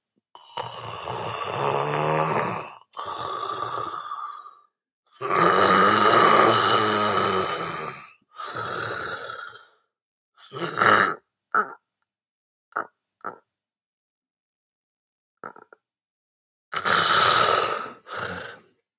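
A person imitates snoring as the tongue falls back into the throat: several long, rasping, rattling snorts, then shorter, fainter bursts separated by pauses.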